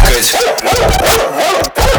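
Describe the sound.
Dog barks and yips repeat over a music backing, loud and rhythmic, with short sharp bursts and a brief drop near the end.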